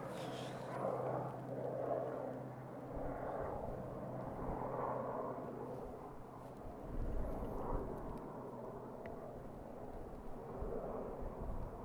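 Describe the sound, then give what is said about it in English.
A helicopter flies overhead near the top of a hill, producing a steady low droning rumble that lasts throughout, with gusty wind buffeting the microphone on top of it. “a lot of helicopters today.”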